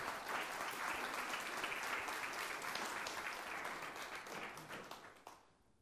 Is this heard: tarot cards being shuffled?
no